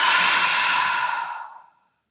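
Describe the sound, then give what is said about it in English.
A long, airy exhale through the mouth during a guided breathing exercise: one steady breathy rush that holds, then tapers off and stops. “And we'll exhale through the mouth. So let's do it together. Inhale. Let it go through the mouth.”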